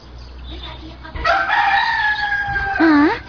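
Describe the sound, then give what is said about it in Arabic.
A rooster crows once in a long, loud, sustained call with a wavering end, after a quieter stretch of low rumbling noise. “ديك؟ من أين أتى هذا الديك؟”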